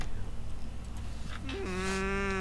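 An albatross, a native Hawaiian seabird raising chicks on Kauai, gives one long, low, cow-like moaning call with a brief step up and back down in pitch, rising over a steady low background hum.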